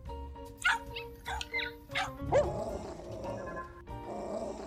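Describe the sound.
A dog barking in a Star Trek scene, a run of sharp, high yips and barks that come loud and clear in quick bursts, followed by a longer stretch of whining, tonal sound.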